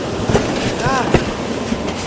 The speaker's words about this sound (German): Hey, der Zug wird langsamer!